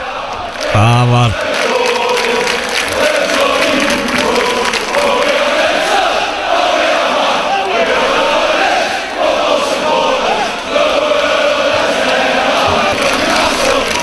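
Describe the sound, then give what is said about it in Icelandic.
Football fans partying outside St James' Park in Newcastle, celebrating the club's new owners: a loud, sustained crowd roar with chanting voices and a brief tonal blast near the start. “þetta er bara party hérna fyrir utan St. James's Park núna í vikunni þegar staðfest var að það verður komnir nýjar eigandur.”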